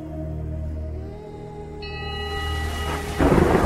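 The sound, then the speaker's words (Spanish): A rolling thunderstorm rumble with rain, heard alone, builds gradually over sustained tones and breaks into a louder crack near the end. “Soy el tronar de las tormentas.”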